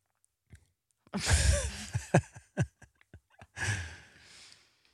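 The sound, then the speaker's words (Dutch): A homemade bread roll filled with Nutella is bitten and chewed, with soft wet smacks and sharp mouth clicks between long breathy exhales and sighs, with no talk. “Nou, ik ga dit heerlijk broodje vol met Nutella in mijn mond stoppen. Zelfgebakken brood.”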